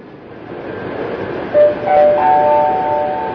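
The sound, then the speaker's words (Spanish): A metro train at rush hour rolls along with a loud, steady rumble. Partway through, a thin, high tonal whine joins in and holds to the end. “El metro en hora punta.”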